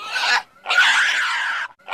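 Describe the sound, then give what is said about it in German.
A piglet squealing during castration without anaesthesia: shrill, harsh squeals in short bursts, one brief, then a longer strained cry, and another starting at the end, loud and alone. “Ein schneller Schnitt ohne Betäubung bei vollem Bewusstsein, ein Quieken, das ist schon immer so.”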